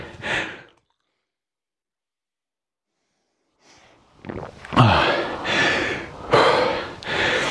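Heavy breathing of someone recovering after rowing exercise: a short burst of breath, a silent pause, then several loud, rough gasping breaths in close succession.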